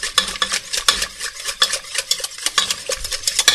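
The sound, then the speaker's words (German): A spoon stirs a creamy sauce of wine, broth and milk, with many quick, rhythmic scraping strokes against the pan and a light sizzle underneath, with no talk. “dabei immer umrühren ist wichtig”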